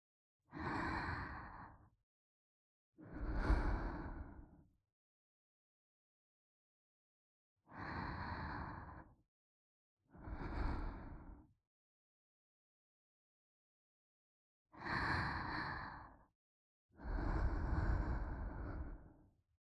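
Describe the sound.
A woman breathes slowly in place of a lullaby: six long, soft, sighing breaths spaced by quiet pauses, calm and regular.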